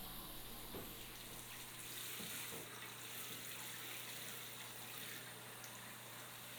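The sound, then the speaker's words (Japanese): Hot water poured over someone's neck: a faint, steady stream of running, splashing water that continues throughout, with no voices. “お湯の温度はこれくらいで大丈夫かな。 では首あたりから流していきますね。”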